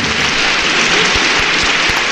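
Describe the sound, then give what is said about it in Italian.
A crowd applauds in a dense, continuous wash of clapping that holds an even, loud level from start to finish, with no voices standing out. “Questo è l'applauso del popolo del pioppo per il dottor Blaster”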